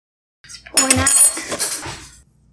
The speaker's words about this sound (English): We watched the honey dissolve as we stirred.